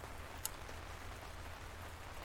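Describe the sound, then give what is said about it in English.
Steady rain falling, a faint, even hiss that stays constant throughout, with one brief sharp tick near the start. “Why is he alone in the rain like that?”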